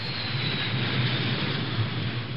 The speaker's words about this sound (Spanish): A bordo de este avión han llegado a Washington los 222 presos políticos que Nicaragua ha liberado por sorpresa.